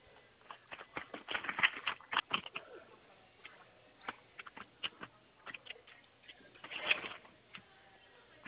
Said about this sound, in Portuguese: Estou abrindo. Ele é um vermelho. Estou abrindo o envelope.